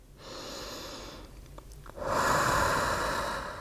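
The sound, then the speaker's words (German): A deep breath during a meditation, drawn in slowly and then released as a longer, louder, breathy exhale, heard alone without talk. “Ich atme noch dreimal tief ein”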